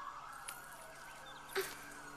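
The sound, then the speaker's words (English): Several sirens wail faintly and steadily, thin tones gliding up and down in pitch. No one speaks over them. “Shut up! I can't think with all these sirens.”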